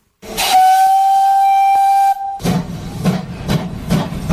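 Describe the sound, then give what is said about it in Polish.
A steam locomotive whistle in Poland sounds one long, steady, loud tone, then hissing steam takes over with repeated bursts of escaping steam. “To była podróż parowozem.”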